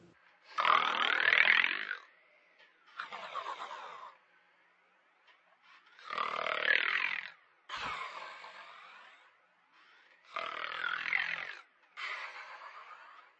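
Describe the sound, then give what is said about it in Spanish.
A grandmother snoring: six rough, rasping bursts come in three close pairs, like breaths drawn in and pushed out, each followed by a silent pause. “De repente, caí en la cuenta. Mi abuela estaba roncando.”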